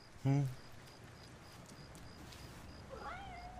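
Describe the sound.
A cat meows: one loud, short meow near the start, then a fainter, longer meow toward the end over a quiet hiss.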